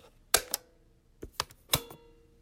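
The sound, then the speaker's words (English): Sharp mechanical clicks as a cassette tape is plugged into a playback system, a few quick clacks in separate short bursts, with no voices. “Okay, listeners, I'm plugging the tape into our system here.”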